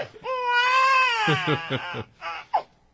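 An infant cries in one long, high, strained wail that breaks into a few short, choppy sobbing pulses and then ends in a final sharp, brief cry.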